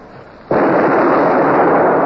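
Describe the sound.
A ship's cannon firing a broadside: a sudden loud blast bursts in and then holds as a sustained, dense roar to the end.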